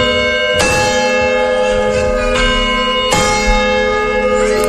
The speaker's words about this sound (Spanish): ¿Y esto qué está sonando? Pues mira, están tocando la hora en punto. Este es el sonido, por ejemplo, de unas 8 de la mañana.